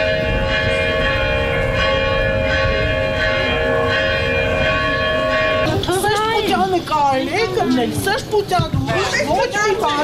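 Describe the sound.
Church bells ring from a church facing the diocesan headquarters in Armenia during a police operation, a sustained, layered ringing tone that carries on as several people start talking over it partway through.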